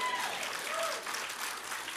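Church audience applauding during a sermon, soft, steady clapping from many hands, fairly quiet and even for about two seconds.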